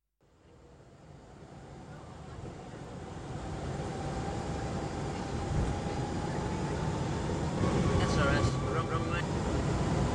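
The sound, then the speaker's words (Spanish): Airport ambience while waiting for a plane to depart: a steady, broad roar that swells after the first second and holds, with a faint, sustained whine running through it. “Estoy en el aeropuerto esperando la salida del avión que nos llevará.”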